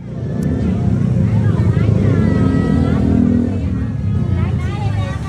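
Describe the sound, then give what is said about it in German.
Bustle of a night market street in Bangkok's Chinatown, a loud, continuous wash of crowd chatter mixed with the rumble of passing engines and traffic, with voices talking throughout. “Das, was ihr da gerade hört, das ist der Night Market in Chinatown.”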